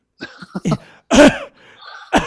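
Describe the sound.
A person imitates a cough, mimicking a coughing scene from a movie: several short throaty bursts, then a louder raspy hack and a final burst at the end.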